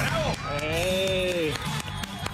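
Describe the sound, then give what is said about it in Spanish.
An audience claps and cheers for a man, with a loud, steady wash of clapping and a raised cheering voice over it, lasting a couple of seconds. “Buena, un aplauso para el señor.”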